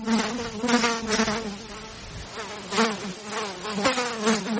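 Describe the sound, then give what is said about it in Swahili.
Black soldier flies buzz at an insect farm in Kilifi on the Kenyan coast, a dense, continuous, high-pitched drone that swells and fades in loudness as wings whir, with no talk. “Kiwanda hiki kinatumia teknolojia mpya ya kisasa ya kufuga wadudu aina ya inzi wanaofahamika kama black soldier flies.”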